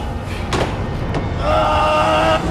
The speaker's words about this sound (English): The room's steel door swings shut. Strahm tries to pull it open.